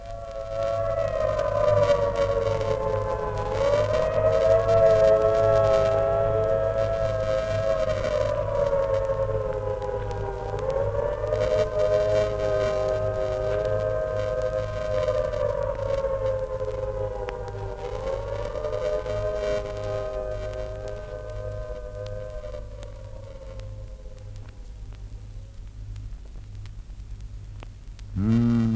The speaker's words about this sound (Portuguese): Misturando-os todos pela ordem porque os citei, ficarão fazendo uma ideia aproximada do que seja uma blitz aérea. É claro, a amostra ouve-se no minuto, enquanto que a autêntica blitz se prolonga às vezes por uma noite inteira.